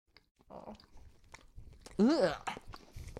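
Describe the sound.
People bite into and chew soft milk bread, with soft mouth and chewing noises and one louder burst partway through, while voices talk around them.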